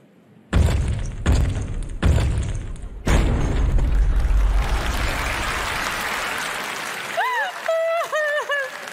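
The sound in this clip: Heavy booming sound-effect hits, timed to walking and sitting down: four deep thumps at a steady pace, then a long rumbling crash that slowly fades. A person speaks over the end.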